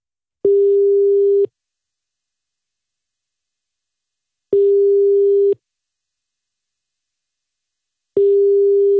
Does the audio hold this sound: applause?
no